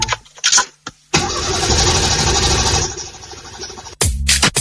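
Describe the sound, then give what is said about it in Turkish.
A car engine cranks over and fails to start, as with a weak battery or faulty starter: a loud, steady, rhythmic churning lasts about three seconds and then cuts off abruptly, with a few short bursts of noise before it. “Marş basmıyor ya da akünüz mü bitti? Yolda mı kaldınız?”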